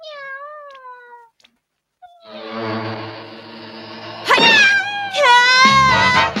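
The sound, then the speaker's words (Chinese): A stray cat in an animated cartoon meows several times. An opening call gives way after a short silence to longer drawn-out yowls that grow louder and more strained toward the end. “你快啲将呢只野猫赶扯啊！”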